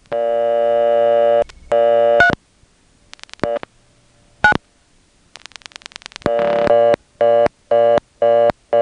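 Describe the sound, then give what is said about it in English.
Telephone dialing on an old step-by-step exchange: a few dial clicks and tones, followed by a rapid, loud, repeating reorder tone that marks a vacant selector level. “So let me dial 3 and then 9. If we still get a reorder, it suggests that it's simply a vacant level.”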